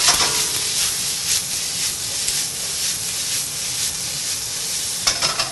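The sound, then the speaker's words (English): Red pepper and red onion sizzling in a hot pan for a tofu stir-fry, a loud, steady hiss and crackle that holds throughout without talk. “some of that, and then the red pepper and the red onion are going to go in.”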